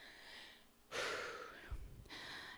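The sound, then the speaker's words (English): A single deep breath is drawn in, a breathy rush of air lasting under a second, then a short quieter gap before another breathy burst. No voices are heard. “Let me take a breath.”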